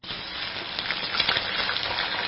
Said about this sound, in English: Like your turkey deep fried?